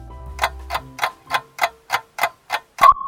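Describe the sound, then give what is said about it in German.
A ticking clock marks a morning radio wake-up call: nine crisp, evenly spaced ticks, alone and clear, the last joined by a short, high beep-like tone. “Weckruf. Ja, den hört ihr gerade.”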